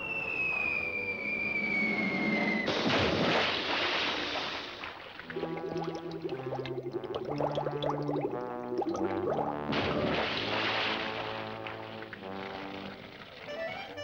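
A cartoon splash as a character jumps into water: a high whistling tone, then a loud burst of splashing water, followed by bubbly, gurgling underwater sounds under lively orchestral music.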